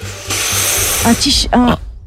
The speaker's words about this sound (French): Un vêtement, bonne réponse. Quoi ? Heureusement que j'ai secoué mon t-shirt.